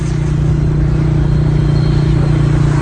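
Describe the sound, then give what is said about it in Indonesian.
Loud, steady low engine drone of a motorcycle throttling along an empty road, a continuous rumbling hum with no breaks. “Kulihat tidak ada kendaraan yang lain, loncat gas motorku.”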